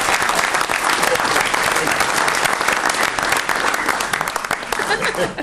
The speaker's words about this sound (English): we usually don't have audience participation in claps, but I'm going to overlook that